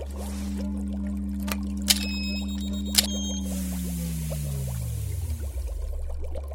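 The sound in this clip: Liquid chemicals trickle and pour from an opened tube into a mixture, over a steady low hum, with two sharp clicks early on and a tone that sinks in pitch toward the end.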